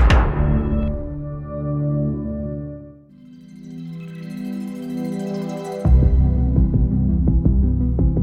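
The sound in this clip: A streaming service's audio logo opens with a deep booming hit and a swelling, resonant tonal chord, then leads into a synth theme song built on a bright, driving, repeating arpeggio pulse over low sustained tones.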